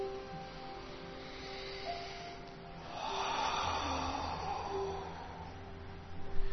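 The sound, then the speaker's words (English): A slow, soft deep breath swells and fades during a guided meditation, heard faintly over low, sustained background tones. “And now let's focus on taking a nice deep breath from the depth of our heart.”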